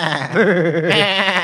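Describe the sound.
A human voice imitates a sheep's bleat during a comic rhyming exchange: one sustained, wavering nasal 'meh' with a trembling, vibrato-like pitch that lasts about a second and a half.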